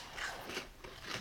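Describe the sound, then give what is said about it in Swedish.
Crunchy bite into a crispy toasted peanut butter and jam sandwich, pressed flat like a waffle, giving a few faint, brittle crackling bursts of crunch. “Jag har inte ätit så mycket sån här jordnötssmör-syltmacka tidigare, men den här var väldigt krispig och god.”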